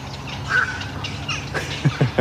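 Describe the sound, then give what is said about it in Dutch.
Birds calling in a breeding colony where nests of young are being fed: a few harsh squawks and honking calls stand out over a steady background of other birds, with no voices. “Ja, fantastisch, hè? Dat geluid. Je merkt dat zodra die jongen gevoerd worden, is er meer activiteit in de kolonie meteen, hè?”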